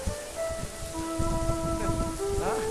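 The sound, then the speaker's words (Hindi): Heavy rain falling as a steady, dense hiss of drops on surfaces, continuous and even in level throughout, with no talking. “बहुत बारिश हो रही है”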